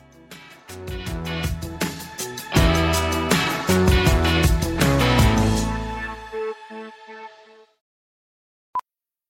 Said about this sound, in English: By now, you know that sound. It's the sound of the Home Depot.